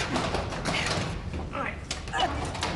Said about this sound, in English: Frost and Marsh force open the other lift shaft door.